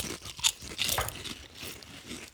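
Cheese and chives flavoured crisps are bitten and crunched, giving a few sharp, brittle cracks followed by softer chewing crunches, fairly faint and with no talking.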